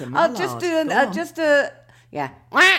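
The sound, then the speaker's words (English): A person imitates a duck quack with their voice, making several nasal, buzzy honks in short bursts. The honks are loud and alone. “I'm practicing. I'm Arlo does make me practice. He does. My duck is impressive.”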